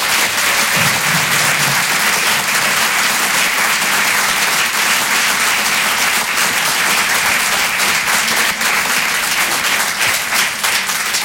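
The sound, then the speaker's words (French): Comedy club audience applauds a comedian as he is introduced: dense, steady clapping at a constant loud level throughout, with no pauses and no voice standing out above it. “Faites du bruit s'il vous plaît pour Malik Fares.”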